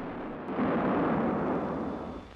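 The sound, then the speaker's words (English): A V1 flying bomb, or buzz bomb, exploding near a bus in the street: a loud, broad roar that swells after a brief onset, holds for nearly two seconds, then slowly eases away. “V1, the flying bomb, the robot bomb, the buzz bomb. You're a passenger on a bus, and this is the end of your last trip.”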